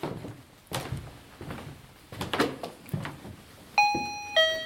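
An electronic chime sounds twice from a motion sensor set off by a foot placed in front of it, a bright ringing tone each time. Several soft thuds of footsteps on wooden boards come before the chimes.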